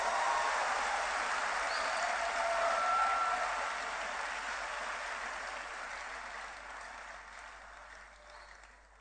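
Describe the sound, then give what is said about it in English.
An audience clapping together during a church service, a steady, dense patter of many hands that stays faint and slowly fades over about nine seconds. “Give the Lord a wonderful clap offering.”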